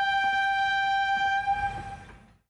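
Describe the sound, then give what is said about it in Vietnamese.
Train rushing along the track with its horn blaring, a loud, steady, bright tone over a low rumble. The horn cuts off partway through and the rumble fades quickly to silence. “Lúc này, chiếc tàu hỏa kia ù ù lao tới.”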